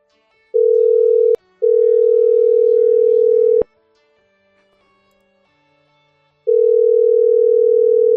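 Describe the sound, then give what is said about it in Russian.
Ringback tone of an outgoing Viber call: a loud, steady single-pitched tone in three bursts, a short one, a longer one after a brief break with a click, then silence before the third begins. “Набираю с Вайбера.”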